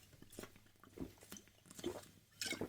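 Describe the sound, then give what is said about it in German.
Someone takes a sip of a drink: faint, soft mouth and swallowing noises, a few short slurps spread across the quiet moment. “Entschuldigung, ich brauche einen Schluck.”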